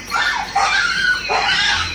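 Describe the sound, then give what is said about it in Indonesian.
A small dog barks while herding a wild boar during a hunt, giving a steady run of shrill yips and yelps with no pause. “Hai saudara-saudara, lihat, lihat anjing tiang. Dia berusaha menggiring seekor babi hutan.”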